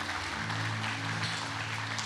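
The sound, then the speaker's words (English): Congregation clapping hands during a church worship service, a dense, steady patter of many hands that holds at an even loudness from start to finish. “Come on, let's clap our hands for Jesus this morning.”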